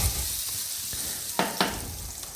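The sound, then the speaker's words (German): Garlic chive stalks frying in hot oil give a steady crackling sizzle, with two sharper pops near the middle and a few fainter ticks afterward. “Und schmeißen die hier mal ins Öl.”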